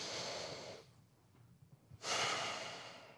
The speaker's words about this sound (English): And I just ask us all now, just take a big breath together.